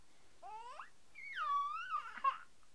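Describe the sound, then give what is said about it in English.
A young child cries in two harmonic wails, the first short with rising pitch and the second longer and drawn-out, wavering before breaking off. “You just feel like crying today, huh? Just feel like crying.”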